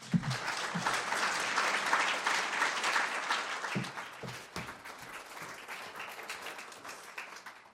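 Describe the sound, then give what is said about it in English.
Audience applause welcomes an author on stage at Town Hall Seattle. Many hands clap, loud and sustained for the first few seconds, then a few stray claps stand out as it gradually thins and softens toward the end. “So please join me in giving a warm town hall welcome to Sonia Shah.”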